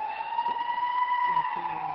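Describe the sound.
An ambulance siren wails outside, a loud, steady high tone with strong overtones held through the whole clip, with faint low rumbling underneath.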